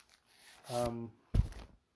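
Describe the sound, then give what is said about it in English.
A very sharp box cutter slices open a standard paper letter envelope, making a brief, faint papery scrape followed by a short rip. “fortunately, this really is a really good box cutter. Very sharp. And it's opening well enough. This is like a standard letter envelope.”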